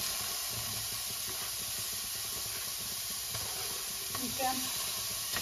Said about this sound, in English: So once these onions are cooking pretty well, we can start adding the carrots and the tomatoes.